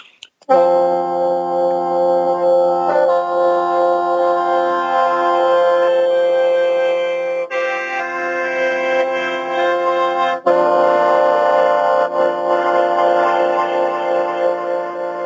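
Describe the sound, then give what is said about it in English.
Reedy, buzzing sustained tones from a wind instrument of long bamboo pipes strapped together, blown into a central chamber while finger holes are covered. A steady, loud drone shifts between a few held notes, heard alone without talk. “it's long bamboo pipes that are strapped together, and then halfway through the pipes, there's a chamber that I blow into, and then I'm covering up little holes to make the reed sound.”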